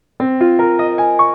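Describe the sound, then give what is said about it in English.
A chord built in fourths is stacked one tone at a time, six sustained notes entering roughly every fifth of a second and climbing upward. It forms a loud, ringing, open-sounding harmony. “It's different from chords built up in fourths, like this.”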